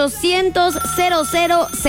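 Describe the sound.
A telephone rings with an incoming call to a radio show, repeated bright ringing bursts mixed into a tonal, voice-like jingle.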